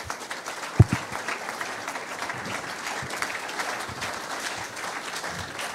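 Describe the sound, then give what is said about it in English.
An audience applauds to welcome a guest speaker at a Sunday talk on addiction, a sustained, even patter of many hands with one sharp knock early on. “So would you join me today in putting your hands together and welcoming Dr. Ferghal Armstrong.”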